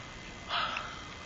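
A person yawning as a demonstration in a children's vocabulary lesson: a single soft, breathy exhalation lasting under half a second, faint against a quiet background.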